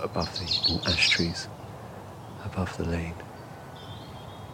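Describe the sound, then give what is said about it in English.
A small robin sings in hazel and ash trees in woodland during a morning walk in the Brecon Beacons. High, thin, twittering phrases come in a few short bursts, partly under a person speaking. “Just hearing a little robin singing above me in these hazel”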